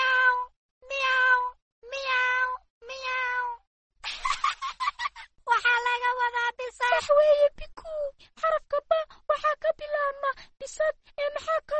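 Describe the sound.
A cat meows four times in evenly spaced, clear calls, then breaks into a rapid run of many shorter, overlapping meows and chirps that continue to the end.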